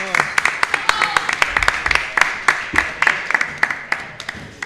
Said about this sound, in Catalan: doncs moltes gràcies a vosaltres i ja un fort aplaudiment pel Marc